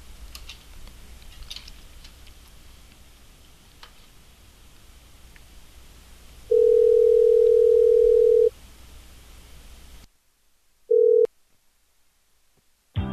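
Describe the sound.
A steady telephone tone sounds while calling a telemarketing number: a faint background hiss, then a long two-second beep, a quiet pause, and a second, much shorter beep.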